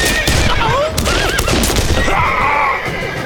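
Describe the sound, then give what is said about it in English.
Pistol gunfire in a shootout with mounted riders: many sharp shots crack over a busy, continuous din of clatter and swooping pitched noises, loud throughout. “Shoot him down! The riders pulled their pistols.”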